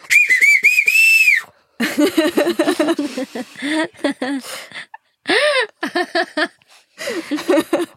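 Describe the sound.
A human whistled signal from Madagascar opens with a sustained, wavering high whistle lasting over a second. People then talk, and a brief high whistle cuts in midway.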